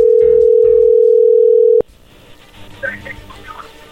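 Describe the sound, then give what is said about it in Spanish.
Telephone dial tone heard while dialing a call: a loud, steady, unbroken hum that cuts off abruptly with a sharp click, leaving faint, uneven line noise. “Bueno, vamos a marcarle a ver qué pasa.”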